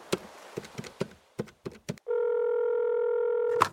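A telephone call being dialled to a researcher: a run of about seven short keypad beeps, then a loud, steady ringing tone held for roughly a second and a half.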